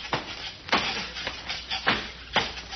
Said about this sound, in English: Now, hold the ladder while I climb up to the roof.